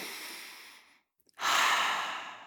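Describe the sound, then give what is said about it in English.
A deep breath in and out during a relaxation exercise: a soft drawn-in breath, a brief silent pause, then a louder, fuller airy exhale that trails off, with no talking. “So let's just take a deep breath in and out together.”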